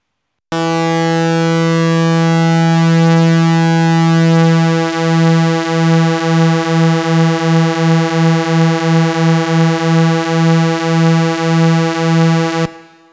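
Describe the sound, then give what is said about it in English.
Two synthesizer oscillators, slightly out of tune with each other, make a fat, chorus-like drone. It starts abruptly as a loud, smooth, low buzzing tone, then settles into a regular wavering throb until it cuts off. “if you have two oscillators, they can be adjusted to be slightly out of tune. That creates a fatter, chorus-like sound, like this.”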